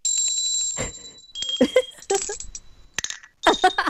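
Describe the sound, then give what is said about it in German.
Small handcrafted holiday souvenir bells ring in several bright, tinkling strikes. High, pure tones linger between the hits, and no one speaks. “Kleine Glöckchen, aber nicht so ein Ramsch, sondern wirklich was Hochwertiges. Also gut kunstwerklich gearbeitet. Und wie klingen die?”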